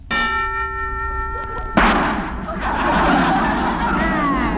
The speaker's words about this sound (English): That's the first time I ever heard a preview of a gun going off.